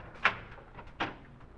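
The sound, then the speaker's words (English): A door being unlocked and opened in a house at night, heard as two short, faint clacks spaced under a second apart, with no other sound around them. “I got up and unlocked the door.”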